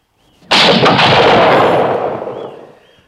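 A single loud pistol shot fired during a duel, a sharp sudden crack that rings out and decays slowly over more than two seconds into a long rumbling tail.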